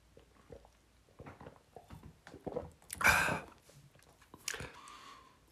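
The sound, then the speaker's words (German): Someone takes a quick sip of beer: faint mouth and swallowing clicks build to a louder breathy burst in the middle, followed by another short burst near the end, with no speech. “Moment, schnell, ich muss, muss schnell einen Schluck Bier trinken.”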